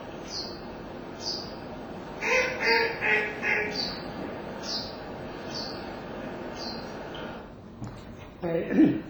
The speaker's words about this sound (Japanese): ペッペッペッペッというのはご存知のマガモです。